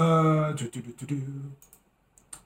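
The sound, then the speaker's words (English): Typing on a computer keyboard: after a brief spoken voice, a few soft, quick key clicks come in short bursts, then a last isolated tap. “hold on, I have to type it.”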